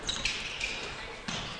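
A few faint basketball bounces as the ball is dribbled on the court during a game, soft thuds under a steady crowd hiss.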